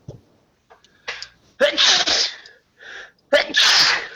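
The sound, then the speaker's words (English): A person sneezes while standing in a queue to board a ship: a few quick breaths build up, then come loud, hissing bursts of sneezing. “I'm about to sneeze.”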